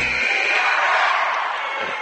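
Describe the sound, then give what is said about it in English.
A high school basketball crowd cheering for Ansonia, a loud, sustained roar of many voices with scattered shouts that holds steady throughout. “Well, the Ansonia crowd, Chuck, now has a lot to cheer about. Well, they're excited.”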